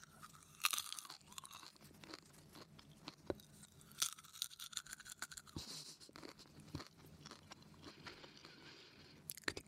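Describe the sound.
Popcorn is crunched and chewed in many irregular, crisp bites and grinding chews, quiet and close, with sharper cracks scattered among softer munching.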